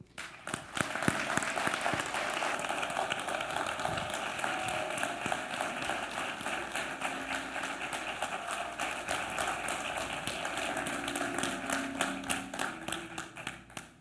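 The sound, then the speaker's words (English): A church audience applauds as a guest is welcomed. The clapping is steady and sustained for about fourteen seconds, with sharp individual claps standing out early and a faint low hum underneath. “Can we put our hands together, church, as we welcome today the Ex-Crossmaker?”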